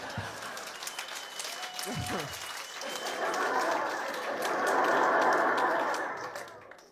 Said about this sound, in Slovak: Dobre, tlieskajte mi, mám to rád.